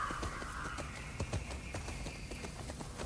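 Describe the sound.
Horse hooves clip-clopping in a video game, a steady, even run of soft, faint hoofbeats repeating throughout.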